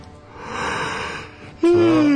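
A person yawns: a long, breathy intake swells and fades, then ends in a loud voiced tone that slides slowly downward.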